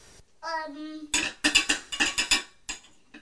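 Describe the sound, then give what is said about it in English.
A spoon clinks against a teacup at a children's tea party with teddy bears: a quick series of light, bright taps after a short child's vocal sound at the start, then a final separate clink. “Are you stirring the tea with the spoon?”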